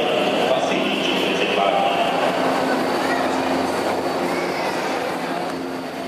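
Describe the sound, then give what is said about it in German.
A São Paulo metro train travels toward Pinheiros station with a loud, unbroken roar of wheels and carriage noise, thin metallic squeals running above it. The sound fades slightly at the end. “Wir fahren mit der Metro zum Umsteigebahnhof Pinheiros weiter in Richtung Süden, in die Peripherie der Megametropole São Paulo.”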